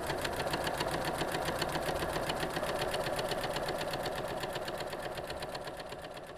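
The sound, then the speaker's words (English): A sewing machine runs a zigzag stitch, its needle hammering in a fast, even rhythm throughout, steady and unbroken before easing slightly quieter toward the end. “Oh, that's a different stitch. That's a different stitch.”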